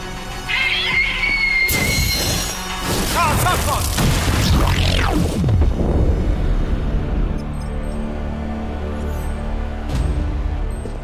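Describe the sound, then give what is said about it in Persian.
An explosion in a city centre erupts as a heavy, booming blast with crashing, rumbling debris that stays loud for several seconds before settling into a lower, fading roar. “یه انفجار در مرکز شهر.”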